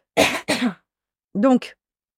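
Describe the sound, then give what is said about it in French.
Coughing: two short, harsh coughs in quick succession, a pause, then a rougher, throatier burst that trails off, each one loud and alone against silence. “Je tousse.”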